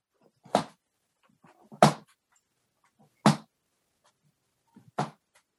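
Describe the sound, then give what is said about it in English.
Regular creaking from within a room, four short, sharp creaks spaced evenly about every second and a half, each a brief burst with near silence between them and no voices. “The chambermaid becomes aware of the regular creaking.”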